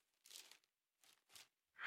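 Paper rustles and crinkles as a sheet is handled, in four short, soft bursts separated by brief silences. No one speaks.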